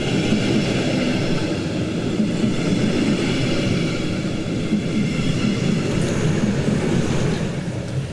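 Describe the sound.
Steady rolling rumble of a train hauled by a DB class 143 electric locomotive on the line to Limburg in the Rhein-Main area, limited to 140 km/h. The noise holds a constant, even level throughout, with no voices.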